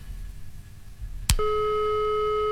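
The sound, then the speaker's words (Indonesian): A phone call cutting off: one sharp click, then a steady, unbroken electronic tone that holds to the end, following a stretch of low background noise. “Iya, terputus ya.”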